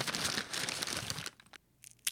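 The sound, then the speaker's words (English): Tearing and crinkling as a bag of boiled or roasted peanuts is ripped open: a rough, continuous rip lasting about a second, followed by a few scattered, fainter crinkles of the bag. “Ripping open a bag of peanuts, whether boiled or roasted,”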